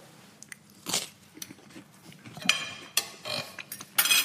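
Crunchy bites and chewing of bread as a person tastes it, several sharp irregular crunches standing out from a faint, quiet background.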